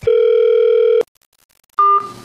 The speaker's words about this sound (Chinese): 好，把电话接到我们的演播室。